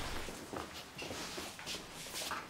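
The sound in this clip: Footsteps of people walking: a run of soft, evenly paced steps over a constant noisy background, with no clear talk.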